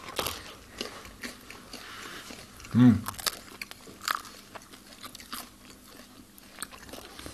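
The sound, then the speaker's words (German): One loud crunchy bite into sourdough bread with a hard crust, followed by faint crackling and chewing noises. “Mal probieren. Natürlich, sollen wir tauschen hier, Mikro gegen Brot. Krümel.”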